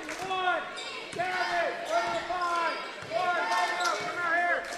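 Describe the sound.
A basketball dribbled during a game against Chase County, with repeated bounces under a commentator's continuous play-by-play voice.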